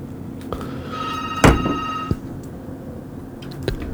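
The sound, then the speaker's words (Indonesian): Telephone ringing on a call that goes unanswered: a single steady, buzzy ring lasting about a second, heard faintly over a low background hiss with a few soft clicks. “Bu Resmi, ternyata gak bisa keangkat ya teleponnya”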